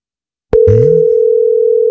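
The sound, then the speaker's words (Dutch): A telephone tone sounds while a call is placed. It starts with a sharp click, then holds one steady, loud pitch without a break to the end. “Dus ik ga eens kijken of hij al wakker is. Ga hem eens bellen. Hopelijk neemt hij op.”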